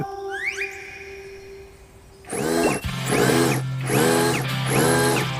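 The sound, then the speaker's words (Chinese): A power tool drives a nail into wood: after a quiet stretch with faint thin tones, four buzzing mechanical bursts follow one another over a steady motor whine. “打一钉子。”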